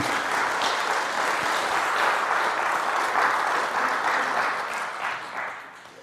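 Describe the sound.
Audience applause at a church service welcoming a speaker: dense, steady clapping from many hands that holds level and then fades toward the end.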